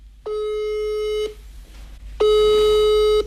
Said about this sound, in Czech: Tak mu volám.